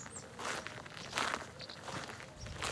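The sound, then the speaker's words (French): Footsteps walking through the cemetery of La Coulonche, a faint series of soft, brushing steps at an even walking pace, with no talking. “On marche dans le cimetière de la Coulonche.”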